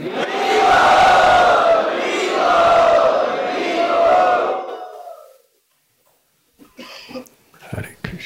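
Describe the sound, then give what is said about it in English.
Temple crowd chanting loudly together in welcome, a full, sustained chorus of voices lasting about five seconds before cutting off into near silence with a few faint scattered sounds. “Let us welcome by loudly chanting.”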